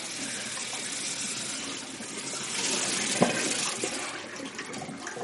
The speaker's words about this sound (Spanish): Se levanta y se acerca a un lavabo que hay frente a la cama. Mete la cabeza bajo el chorro.